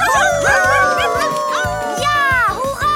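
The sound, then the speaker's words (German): Excited yipping and barking from several animated dogs rushing off, loud and overlapping, continuing without a break for a few seconds. “Begeistert stürmten die Hunde los und sie freuten sich schon jetzt auf ihr nächstes Abenteuer.”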